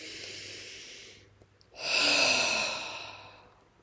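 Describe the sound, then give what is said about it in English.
A deep breath drawn in through the nose as a steady airy hiss, a brief pause, then a louder, longer breath pushed out through the mouth that slowly trails off, with no talking. “just take a really deep breath in through your nose, and then on your exhale, just push it out through your mouth.”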